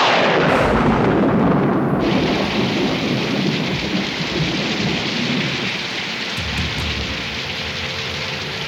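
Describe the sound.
A thunderstorm with heavy rain: a dense, steady roar of downpour mixed with deep rolling thunder, loud throughout and easing slightly in the final seconds.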